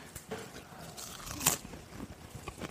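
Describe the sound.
Crusty bread being bitten and chewed: a run of dry, crisp crunches with one sharper, louder bite near the middle, then softer chewing crackles until the end.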